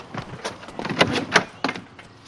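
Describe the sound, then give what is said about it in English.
Back door of a house being opened: a series of clicks and knocks from the handle and latch, with a few sharper accents over a low, steady background noise. “They scurry around the house to an unlocked back door. She opens it, and they enter the house.”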